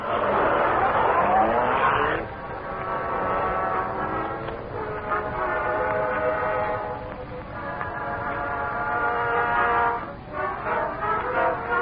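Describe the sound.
A car engine in an old radio drama roars as the vehicle drives off, a loud, continuous mechanical drone with a whining tone that shifts pitch in steps, sustained for the whole stretch.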